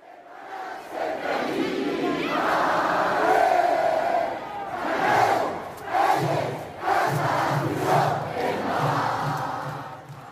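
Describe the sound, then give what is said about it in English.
Villarreal football fans sing their club hymn while packing the streets of their small city. Loud massed voices swell and fall, settling into a more rhythmic, pulsing chant in the second half. “that is the sound of Villarreal fans singing their club hymn, packing the streets of their little city with no airport”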